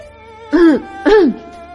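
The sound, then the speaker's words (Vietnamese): A dry cough and throat clearing: two short, sharp voiced bursts about half a second apart over a faint steady hum, with no talk. “Triệu Phổ đã ho khan một tiếng”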